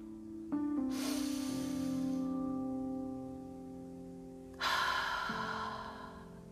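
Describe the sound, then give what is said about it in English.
A slow, deep breath taken before starting: a long, airy inhale followed by a long exhale, both soft, over a steady, quiet tonal hum. “Before we get started, let's all just take a deep breath.”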